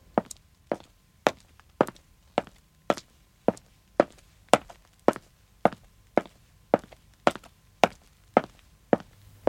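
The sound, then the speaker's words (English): Footsteps of a man walking slowly along a street: many crisp, evenly spaced steps in a steady, unhurried rhythm, each a sharp tap standing out clearly against near silence. “He walks slowly on the other side of the street. They walk towards the town centre.”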